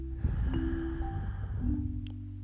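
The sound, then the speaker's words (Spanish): Deep inhale and slow, gentle exhale through the nose during a guided anxiety-relief meditation, a soft airy rush of breath that swells and then trails off quietly. “Vamos a comenzar a inhalar profundo por nariz y a exhalar lento por nariz. Ocho veces. Inhala profundo. Exhala suave.”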